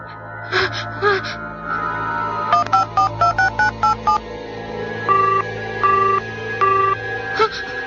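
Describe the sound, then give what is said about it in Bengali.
Touch-tone beeps as a telephone number is dialed: a quick run of many short, clipped tones in uneven clusters, then a few longer held tones, over a low steady hum. “শরীফ, শরীফকে phone দি।”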